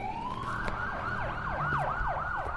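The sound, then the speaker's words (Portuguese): Police sirens wail at night in a city, a tone sweeping upward and then breaking into rapid, repeated up-and-down yelping cycles, loud and continuous with no voices. “É quando os sirenes da polícia me fazem acordar e eu esqueço por um instante que tudo terminou.”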